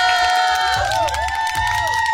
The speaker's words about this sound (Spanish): ¡Ay, qué bonitos aplausos!